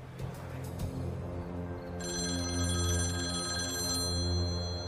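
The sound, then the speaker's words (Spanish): A telephone rings with a bright, steady electronic ring tone that starts midway and holds for a couple of seconds over a low humming drone. “En los angustiosos días siguientes, el señor Portela recibió varias llamadas.”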